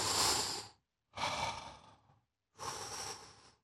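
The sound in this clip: Three soft, airy breaths, each about a second long, come from a person demonstrating chest breathing. Short silent pauses separate them, and no one talks.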